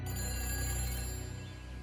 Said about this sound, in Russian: Однажды зазвонил телефон.